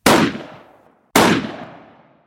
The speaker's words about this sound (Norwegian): Gjennom vinduet så ser Molla broren sin, skutt i hodet, liggende i snøen, fortsatt levende.